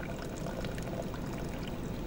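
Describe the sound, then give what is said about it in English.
Cold water poured by the cupful into a pot of simmered coffee grounds and egg, a faint, steady splashing pour lasting about two seconds. “Pour in a cup of cold water and then let it sit for 10 minutes.”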